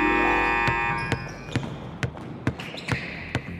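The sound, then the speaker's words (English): A basketball being dribbled thuds about seven times in a steady, even rhythm, each bounce a sharp low impact. “just imagine you're just running down the court, dribbling the ball”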